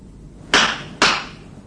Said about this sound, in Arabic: الضربة على الكتف دي بيقولوا انها زي ضربة الطبيب على ظهر المولود